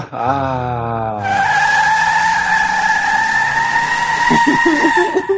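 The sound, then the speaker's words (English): A Camaro skids on a superhighway, its tires letting out a loud, sustained high squeal over steady engine roar after a short falling engine note at the start. “We're back in the Camaro on Dodge Superhighway.”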